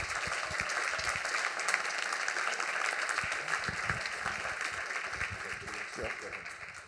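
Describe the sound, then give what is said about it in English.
An audience applauds to welcome two speakers at an evening talk on race, justice and Catholic education, with steady, dense clapping that holds at an even level throughout and tapers slightly at the end. “Please take a moment to give a warm welcome to these two speakers.”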